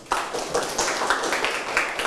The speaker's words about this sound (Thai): ปรบมือ